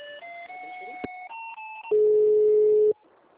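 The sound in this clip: Telephone tones on a failed call to an office extension: a short series of electronic beeps stepping between pitches, then a louder steady tone for about a second that abruptly cuts off.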